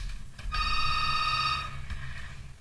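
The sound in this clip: A telephone rings once, a bright electronic trill lasting about a second, with low rumbling background noise before and after it.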